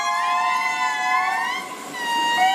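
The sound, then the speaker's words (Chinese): Indri song, the calls of Madagascar's largest lemur: long, siren-like wailing tones with strong harmonics, their pitch wavering and sliding, sustained loud with a short dip before swelling again. “马达加斯加大狐猴的演唱可持续3分钟以上，不同小组的演唱时长和叫声结构各不相同，每个组都很好分辨。”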